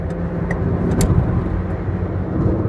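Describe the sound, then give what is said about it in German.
Steady engine and road noise of a Citroën Berlingo overtaking an older Citroën AX on the road, a continuous broad rumble with no voices. “Und hier vor mir fährt der Urvater des Berlingos. Oh, ich fahre ja auch in einem Berlingo. So, den überhole ich jetzt mal.”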